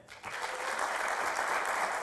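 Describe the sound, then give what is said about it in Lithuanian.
Studio audience applause welcoming a guest onto a television talk show: a brief quiet moment, then dense clapping that swells quickly and stays steady and full to the end. “Pasitikime plojimais.”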